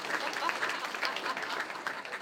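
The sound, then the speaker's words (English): Audience applause at a comedy talk show, a faint, even wash of clapping that carries on steadily throughout without clear breaks. “give a big round of applause for legal and horrible.”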